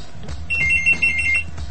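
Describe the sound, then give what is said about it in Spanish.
A telephone rings with an incoming call: one short burst of bright, rapidly warbling electronic trilling over a low, steady background hum. “Tenemos teléfono. Tenemos un llamado.”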